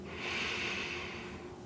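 A slow breath drawn in, heard as a soft, airy hiss that swells and then gradually fades, quiet and on its own.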